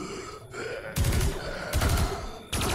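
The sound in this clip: Pulse rifle gunfire in a fight against undead creatures: a few loud, rapid bursts of shots over a busy, noisy background.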